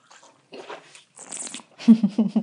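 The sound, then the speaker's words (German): A sip of a drink taken during a tasting: a short, noisy slurp in the middle, followed by low, voiced murmuring sounds. “Ich nehme mal einen Schluck als allererstes.”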